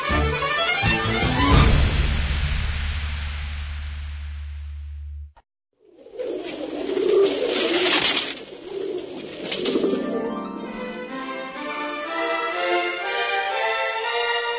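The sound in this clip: Cooing of white pigeons, a run of soft, low, throaty coos over a steady background, with no voices heard.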